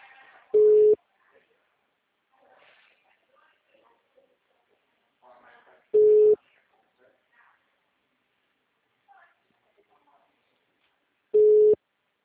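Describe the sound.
A telephone busy signal sounds as three steady mid-pitched tone bursts spaced about five seconds apart, with quiet voices and small noises in the gaps.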